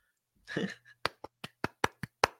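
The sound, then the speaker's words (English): One person clapping hands in applause: after a short burst of voice, a run of sharp, evenly spaced single claps rings out in a quick, steady rhythm until the end. “and if you can't hear this on the mic, I'm giving him a round of applause because he deserves it.”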